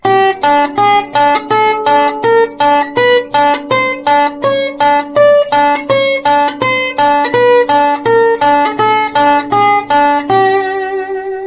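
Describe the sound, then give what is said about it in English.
Slide guitar playing damped staccato notes with an open string sounding in between: a rapid, even stream of many short plucked notes over a sustained lower tone, closing on a longer ringing note. “Sometimes it's necessary to make a staccato note with an open string in between. And in that case, it's necessary to pick up your slide and your damping finger at the same time.”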